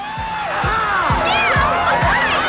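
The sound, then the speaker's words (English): A street crowd cheers and whoops at burning wreckage after a billboard explosion, with loud, rising and falling shouts layered over one another and five regular low thumps beneath the steady roar. “The crowds in the street punch the air as they witness the burning wreckage.”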